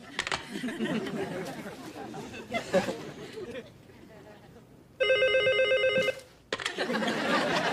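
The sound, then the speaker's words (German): A telephone rings once, a bright, buzzing electronic trill lasting about a second, while people talk. A caller hopes to reach an answering machine, and noisy chatter surrounds the ring before and after it. “Ich wollte eigentlich nur den Anrufbeantworter abhören, also leg bitte auf, ich ruf nochmal an.”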